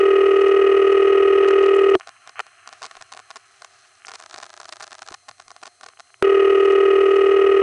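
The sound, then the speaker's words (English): An old New York City exchange's ringing tone, heard on a line to West 73rd Street: two long, harsh, buzzy bursts separated by a pause of about four seconds that holds only faint clicks and crackle. “Well, I don't like the sound of it. That's Endicott 2 and Trafalgar 4 in West 73rd Street. And it might be unique.”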